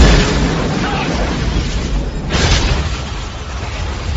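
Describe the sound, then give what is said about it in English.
An explosion from a rocket launcher fired at a chalet comes through as a heavy, sustained roaring rumble with no single sharp crack. It stays loud throughout and swells briefly partway through before settling again. “he appears to be aiming a rocket launcher at the chalet. We're too close!”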